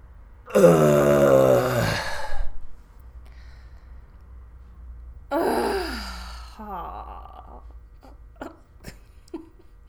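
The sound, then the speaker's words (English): A group of people groaning together: a long, drawn-out groan that falls in pitch, a pause, then a second shorter groan, followed by a few faint clicks. “We give out like a groan. You know, like teens are always like, ugh, ugh, I hate you, mom. Yeah. Um, we just uh, you know sort of sort of groan it out”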